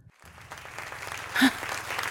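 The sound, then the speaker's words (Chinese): Applause rises from one section of an audience during a church sermon, a moderate patter of clapping that swells briefly with a sharper accent midway, then carries on at a softer, even level with no speech. “鼓掌的又是这一区的人。”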